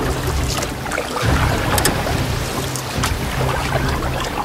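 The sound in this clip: Rowing boat on water as a fairy-tale sound effect: continuous sloshing, lapping and splashing of water against a moving hull, steady and fairly loud throughout, with no voices.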